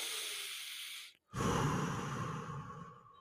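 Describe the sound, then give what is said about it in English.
Deliberate breath work: a long, forceful airy breath that breaks off for a moment, then a second strong breath that surges and slowly fades. “Give me a moment here. Let me do some breathe. I mean, literally, I'm doing breath work.”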